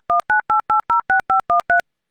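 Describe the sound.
Telephone keypad dialing as a call connects: nine short, evenly spaced two-tone beeps, clear and steady, followed by silence.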